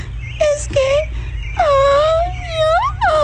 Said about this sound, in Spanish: Tranquilízate. Tranquilízate por un momento, no llores.